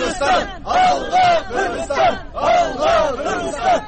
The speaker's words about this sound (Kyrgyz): Вашингтондогу Тажикстан элчилигинин жана Ак үйдүн алдында нааразылык акциясын өткөрүштү.